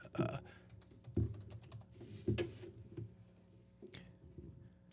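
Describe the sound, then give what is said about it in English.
Typing on a computer keyboard: a few soft, scattered keystroke clicks, faint over a low steady hum. “I would just type in Who Framed Roger Rabbit, right?”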